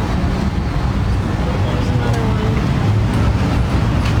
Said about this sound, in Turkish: Teknoloji milyarderi Elon Musk'ın şirketi ürettiği otonom taksileri Texas'ın Austin kentinde trafiğe sürdü. Şu anda Texas Austin'de otonom taksideyim.